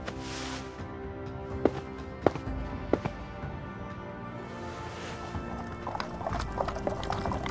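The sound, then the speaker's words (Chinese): Horse hooves clip-clop faintly as a horse-drawn carriage sets off along a crowded city street. A few soft, scattered hoof strikes sound over a low, steady background hum. “韩烨缓缓起身，走到马车木板前，示意行辕前进”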